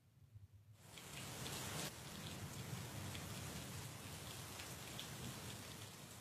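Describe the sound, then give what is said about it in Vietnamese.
Heavy forest rain pours down in a dense, steady hiss that starts after a quieter first moment and then holds loud and unbroken to the end. “Vừa kịp buông cây gậy ngồi xuống thì quả thực là mưa rừng ập xuống, mưa như chút nước.”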